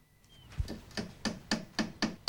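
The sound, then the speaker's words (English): Light hammer blows drive a nail through two pieces of wood that form the corner of a dollhouse, a steady series of quiet, evenly spaced knocks growing slightly sharper toward the end. “Erica hammers a nail through two pieces of wood, which form one corner of the house.”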